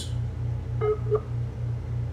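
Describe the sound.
Two short touch-tone beeps as a telephone is dialed to bring a doctor into a meeting by phone. The beeps come in quick succession over a steady, faintly pulsing low hum, with no voices.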